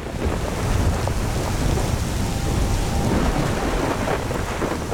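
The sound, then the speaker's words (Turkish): Thunder rumbles through steady heavy rain in the mountains of Laos. A continuous loud wash of rain noise carries a low rolling rumble throughout, with no pause. “Büyük bir gök gürültüsüydü.”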